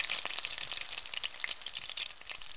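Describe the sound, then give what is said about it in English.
Potatoes fry in oil with a steady, soft sizzle full of dense, quick crackles and pops that continues without a break. “you get to fry potatoes up in oil, and that's pretty good too.”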